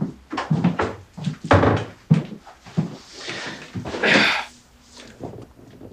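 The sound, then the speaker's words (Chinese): A door is shut as visitors are asked to sit down for a questioning. A clatter of knocks and thuds includes one sharper bang partway through, with shuffling movement around it. “把门关上。”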